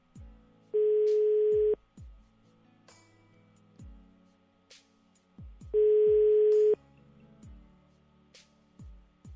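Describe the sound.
Ringback tone on an unanswered phone call: two long, steady buzzing tones, each lasting about a second, with a pause of several seconds between them. Faint clicks and soft background sounds fill the gaps.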